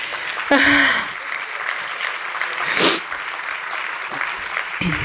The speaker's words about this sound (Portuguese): Esta salva de palmas não é para mim e eu gostava que ela fosse assim com mais entusiasmo.